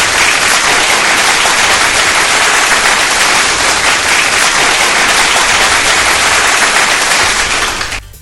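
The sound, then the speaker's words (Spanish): Loud, dense applause follows a song and holds steady with many hands clapping, then cuts off abruptly just before the end. “Un fuerte aplauso, por favor.”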